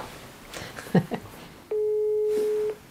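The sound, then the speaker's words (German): A telephone line rings on an outgoing call: one long, steady, mid-pitched ringing tone holds for about a second. Before it come a few faint, short sounds. “Ich muss, glaube ich, Lenard anrufen und ihn fragen. Mache ich gerade.”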